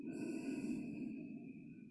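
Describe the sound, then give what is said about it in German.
A slow, soft exhale during a guided meditation, one long, steady breath of air noise. It stays faint against quiet, sustained background tones. “Und atme aus.”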